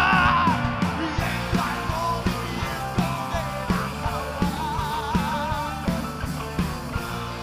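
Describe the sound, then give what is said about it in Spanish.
A war cry is shouted: loud, sustained yelling over a steady, regular thumping beat that runs through the whole stretch. “Ahora, ahora, ahora Alguien puede dar un grito de guerra.”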